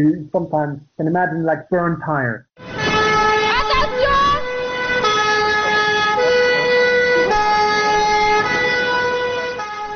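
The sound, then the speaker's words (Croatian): Sirens of ambulances and fire engines racing by in Brussels. A short stretch of talk gives way to loud, sustained wailing siren tones with gliding pitch over a low traffic rumble. “Neprestano jure ambulantna kola i vatrogasci.”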